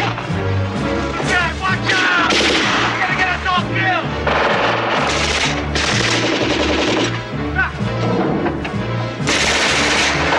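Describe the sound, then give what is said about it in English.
Heavy machine gun fire raking a train, made of loud, rapid bursts of shots that run almost without pause. Sharp cracks follow one another in dense clusters from start to finish. “A German trooper riddles the train with heavy machine gun fire, killing two passengers.”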